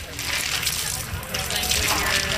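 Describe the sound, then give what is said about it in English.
Running water gushes steadily as hands are washed after gloves are removed, a continuous hissing splash that holds an even level throughout. “You're going to remove those gloves and wash your hands.”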